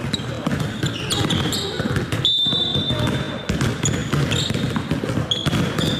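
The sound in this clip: Basketballs bounce on the court of a children's basketball summer camp at a mountain sports ground: many rapid, irregular thuds with sharp squeaks, under children's and adults' voices.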